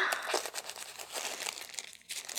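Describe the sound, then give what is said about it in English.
Plastic crinkling and crackling as a fresh one is taped up, soft, irregular rustles and crumples that rise and fall in quick bursts, with no voice over them. “This fresh one's gonna feel so much better. Gonna get you all taped up.”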